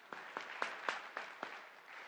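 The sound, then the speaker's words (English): Clapping from a church audience after a scripture reading, heard as six quiet, evenly spaced claps in a slow, steady rhythm. “You can clap for her, that's fine.”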